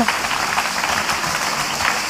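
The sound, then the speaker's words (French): Audience applause at the close of a public discussion event, a brief, steady burst of many hands clapping at a moderate, even level from start to finish. “Applaudissez.”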